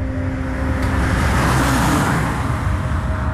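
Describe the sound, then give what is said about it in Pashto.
A car drives by near a beach at night, heard as a steady, loud road roar with a low engine hum. It swells slightly toward the middle and then holds, with no voices. “موټر تیر سو”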